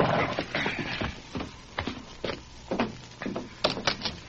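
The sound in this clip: A horse's hooves clop on the ground as a rider arrives at a bunkhouse and reins up. The irregular, fairly faint hoofbeats and scuffs come many in a row, with no voices.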